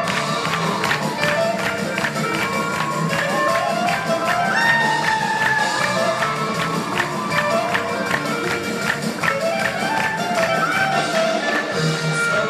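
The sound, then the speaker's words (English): Live klezmer music plays continuously, its melodic lines carrying over a lively audience that cheers and shouts throughout the performance. “That is pure klezmer, and the audience absolutely loved it.”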